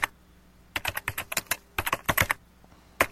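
Typing on a computer keyboard: rapid, uneven runs of crisp key clicks, starting after a brief quiet stretch, then continuing in many bursts with short gaps before a final few strokes, with no talk.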